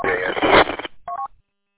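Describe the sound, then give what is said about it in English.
A phone rings with an incoming dispatch call. A muffled burst of narrow-band sound is followed by a short electronic tone. “Yeah, my phone's ringing here. I got a dispatch call there.”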